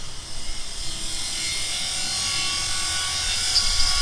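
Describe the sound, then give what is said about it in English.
A welding torch cuts through a padlock and heavy chain on a locked silo door, giving off a continuous high, airy hiss that holds steady and grows slightly louder toward the end. “The door to the silo is locked with a padlock and heavy chain. Fortunately, I don't go anywhere without my special reporter's welding torch.”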